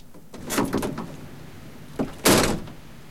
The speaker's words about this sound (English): She gets in her car, and he slams the door after her.